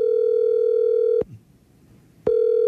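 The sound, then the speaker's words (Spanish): A phone line rings as a call is dialed: a steady, loud, humming ring tone holds for over a second, cuts to near silence for about a second, then starts again. “Ya se me antojó. Está marcando,”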